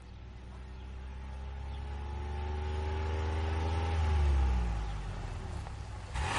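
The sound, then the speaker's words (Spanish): A car with two people inside pulls up beside someone walking along a street in a residential area. Its engine hum grows steadily louder, then drops in pitch and eases off as the car slows. “Un coche en el que viajan dos personas se coloca a su lado.”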